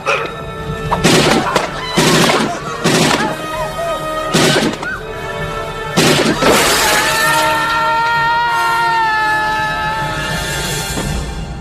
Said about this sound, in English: Nice shooting, son.